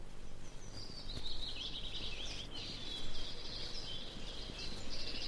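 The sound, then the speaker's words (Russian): A goldcrest sings in a thin, very high-pitched, continuous run of rapid twittering notes. The song stays faint against a steady background hiss. “А самое маленькое гнездо у желтоголового королька. Слышите, как он поет?”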